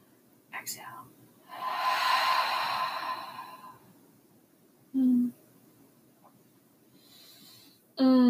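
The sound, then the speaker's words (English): A deep breath during a guided breathing exercise, heard as one long, soft airy rush of air with a whispery quality, followed later by two short voiced sounds. “Two more deep breaths in. Exhale. Deep breath in.”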